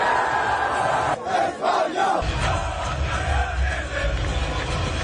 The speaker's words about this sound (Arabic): فرحة الجمهور مع اللاعبين وملك إسبانيا الذي تواجد بالمباراة.